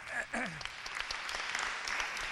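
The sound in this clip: Applause from an audience at a talk on sourcing equipment and technology, a dense, steady patter of many hands clapping for over two seconds, with a voice heard briefly at the very start.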